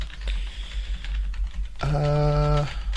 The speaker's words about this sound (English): And I think I know my password. Let's type that in.